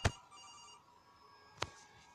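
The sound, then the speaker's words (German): A telephone ringing in a horror video game with animatronics. Two sharp, loud onsets, one at the start and one after a pause, with a faint, steady ringing tone between them and no talk. “Noch ein Anruf.”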